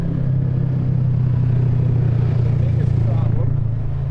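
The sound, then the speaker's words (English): Low, steady engine drone from a UTV utility vehicle driving past, a buzzing hum that holds at an even level with a faint rattle over the whole stretch. “you could hear the difference between a normal vehicle and the UTVs. There's one there.”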